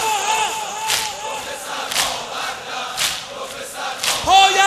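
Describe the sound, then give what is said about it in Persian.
Crowd beating their chests together in mourning (sineh zani): five heavy, unison thumps land about once a second, steady and rhythmic under loud group chanting. “حالا همه با هم دست بیا برا سینه بزنم همه با هم”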